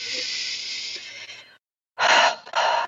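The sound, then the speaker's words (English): A deep breath drawn in during a guided grounding exercise: a long, steady, airy hiss, then a short silence and two shorter breathy bursts, with no talking. “Let's take a deep breath in together and just be in this moment right here, right now”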